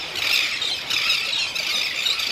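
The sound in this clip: Chicks calling among thousands of birds in a dense seabird colony: a continuous, loud chorus of high-pitched squeals and squawks that overlap without pause, with no voices.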